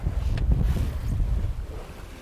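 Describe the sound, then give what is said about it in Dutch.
Wind buffets a sailboat sailing close to a beam reach in force 5 winds gusting to 6, a steady low rumbling roar that eases slightly toward the end. “We varen nu ongeveer bijna halve wind en het is 5. Windkracht 5, vlaag naar 6.”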